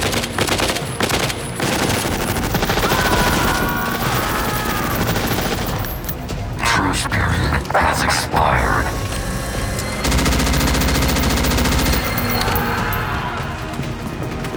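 Sustained gunfire as a squad opens fire on an armored machine. Dense, continuous machine-gun rattling runs for the whole stretch, with heavy crashing impacts mixed into the barrage.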